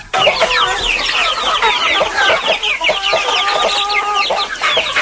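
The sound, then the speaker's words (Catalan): Hens cluck continuously in a flock recorded for a study of their mood. Many short, overlapping clucks and squawks form a loud, busy chatter with no pauses and no human voices. “un 70% van poder distingir l'estat d'ànim de les gallines segons si estaven a punt de menjar o tenien gana. A sobre tenim els àudios. Per tant, fem la prova. Val? Sentim el primer.”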